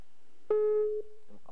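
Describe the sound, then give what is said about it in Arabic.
A telephone tone marks a phone-in caller's line being cut off: one steady electronic tone with strong harmonics holds for about half a second, then drops to a fainter lingering hum, followed by a couple of soft blips. “انقطع الخط.”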